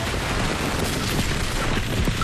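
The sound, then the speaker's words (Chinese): Heavy gunfire rages in a battle, a dense, continuous rattle of overlapping shots with no clear gaps between bursts, loud throughout. “红军的火力太猛了，快跑！”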